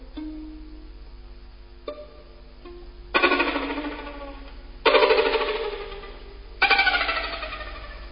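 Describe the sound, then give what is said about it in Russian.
A telephone ringing in the middle of the night: a few fainter tones, then three loud ringing bursts at a steady interval, each starting sharply and fading away, with no voices. “Среди ночи меня разбудил телефонный звонок.”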